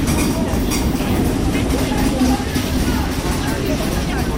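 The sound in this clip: Station ambience at the Bulle train station in Switzerland, with students in transit: a steady low rumble and broad hum with voices talking throughout at an even, fairly loud level.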